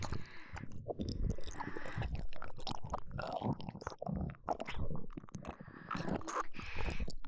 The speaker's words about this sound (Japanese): 今度は味を確かめてみようかな。いただきます。